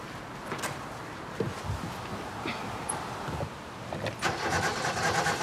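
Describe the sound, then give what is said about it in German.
A car engine being cranked in a start attempt on a car that will not start: rough, low churning and broad noisy rumble lasting about five seconds, swelling slightly toward the end, without a clear catch into running. “Setz dich mal rein und probier mal anzulassen.”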